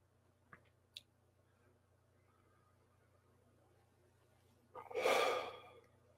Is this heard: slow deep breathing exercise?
yes

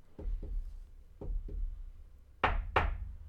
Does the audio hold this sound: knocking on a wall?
yes

